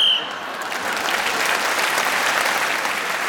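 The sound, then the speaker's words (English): Studio audience applause in a panel word game, breaking out as a round ends on the whistle; a brief high whistle tone sounds at the very start, then dense, steady clapping holds loud and even throughout with no talk. “So Clement brought that round to a close with a panache, and the audience showed their appreciation of how he managed in this game to work that one out and deliver it just as the whistle went.”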